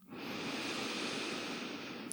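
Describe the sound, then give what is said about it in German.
A deep, even inhale during a guided breathing exercise: one long, steady breath in that holds at an even loudness for about two seconds. “Atme tief, vollständig und gleichmäßig ein”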